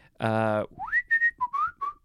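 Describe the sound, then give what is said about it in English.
A person whistles a few short, clear notes after a brief buzzy voiced tone. The whistling opens with a rising glide into higher notes, then drops to slightly lower, fairly loud notes. “I can whistle better than this. I'm trying to like take it. I could move the microphone away when it's whistle time.”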